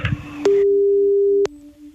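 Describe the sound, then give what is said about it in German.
A phone's ringing tone after a call is placed: one steady mid-pitched tone lasting about a second, followed by a fainter steady tone continuing to the end. “Gut, ich drücke mal auf Anrufen. Sobald sie rangeht, geht's los.”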